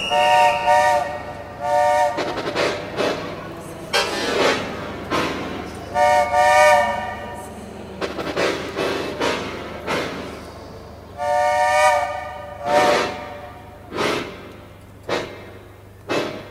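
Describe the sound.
A train arriving at a station platform sounds its whistle in several long, harmonically rich blasts, interleaved with loud rhythmic bursts of rail and engine noise over a continuous low rumble.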